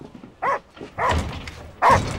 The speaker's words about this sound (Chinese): 这不是你家那条狗吗？哎呦，饿得嗷嗷叫。多少天没吃饭了？